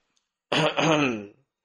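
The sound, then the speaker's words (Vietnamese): A single throat clearing from a narrator reading a fantasy story: one short, voiced rasp lasting under a second, heard alone against silence. “Triệu Địa ho khan một tiếng”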